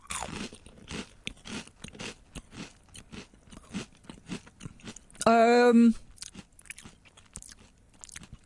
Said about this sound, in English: I'm trying to smell them to see if I get any hint of Ovaltine. They smell more like ready salted crisps, which is a worry, isn't it? All right, I'm going to give it a bite.